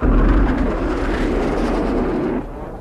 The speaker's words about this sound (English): International Rescue, you are clear to land. Use runway 29. Will not require runway. Coming in vertically.